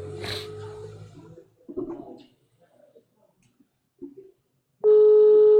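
A WhatsApp call rings out late at night: a loud, steady electronic ringing tone starts abruptly near the end and holds unchanged, after a stretch of quieter, scattered sounds.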